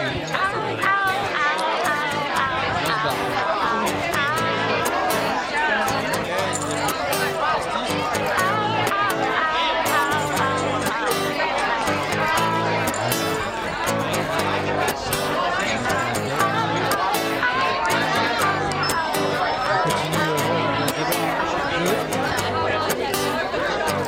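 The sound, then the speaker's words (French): Bar ambience as everyone leaves, with many people chatting at once in a dense, continuous hubbub that stays loud and even throughout. “continue l'ambiance des bars. C'est quand tout le monde part.”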